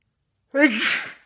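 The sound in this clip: A single sneeze, brought on by heavy pollen in pine barrens. It opens with a short voiced intake and then bursts into a loud, breathy, noisy expulsion that fades quickly.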